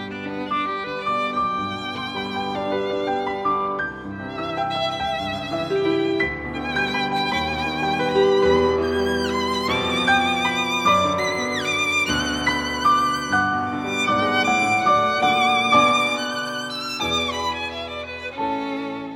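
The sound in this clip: Recorded violin sonata in G major played on violin with piano: a sustained, vibrato-rich violin melody over flowing piano chords, steady and moderately loud throughout, with no voices.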